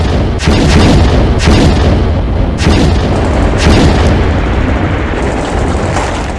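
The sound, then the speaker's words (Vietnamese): Grenade launcher rounds explode all around during a battle: a dense, loud, continuous rumbling roar with several heavier booms punching through at intervals. “đạn phóng lựu nữa lại nổ tứ bề”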